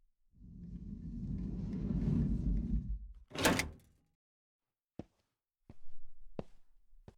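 A door is shut: a long low rumbling movement builds, then a loud bang, followed by a few short, quieter knocks and thuds.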